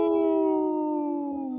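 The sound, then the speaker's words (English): A single long wolf howl, a steady harmonic tone that glides gradually lower in pitch over nearly two seconds, sounding alone without talk. “Howling for Wolves, protecting wolves for future generations. Howl!”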